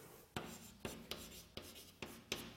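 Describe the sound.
Handwriting strokes while someone works through a mathematical derivation on spherical harmonics. Six sharp, bright scratching onsets come at uneven intervals, each fading into soft rubbing, with no voice over them.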